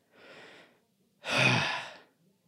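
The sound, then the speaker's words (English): A big deep breath: a soft breath followed by a longer, louder sighing breath, heard alone. “And now I'm going to take a big old breath because I said most of that in one breath.”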